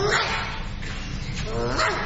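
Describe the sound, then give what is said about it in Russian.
A small dog yips and whimpers in short, high, wavering cries, most clearly toward the end, over a steady low rumble and some talking. “А за ней собачка маленькая”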